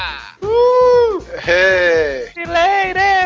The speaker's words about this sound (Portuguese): o bode voltou, infelizmente